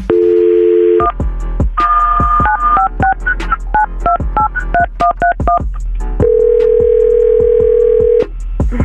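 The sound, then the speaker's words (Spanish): A telephone is dialed and rings: a short dial tone, then a rapid run of many touch-tone beeps of shifting pitch, followed by one long, steady ringing tone. “voy a marcar y voy a preguntar por Bianca”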